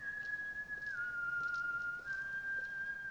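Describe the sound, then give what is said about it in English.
A man whistles while walking back home, a thin, pure, steady tone that dips to a lower note around the first second and then steps slightly up again, soft and unaccompanied. “when he's walking back home and whistling,”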